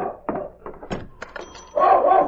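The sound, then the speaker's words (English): A big dog barks and jumps against an office door, giving a few sharp, separate barks mixed with thumps, then a longer, louder rough burst at the end, with no talking. “There's a big dog barking and jumping at your office door across the street.”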